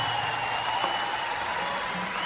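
Applause from an audience, with a brief, continuous patter of clapping at an even level. A faint steady tone hums underneath throughout.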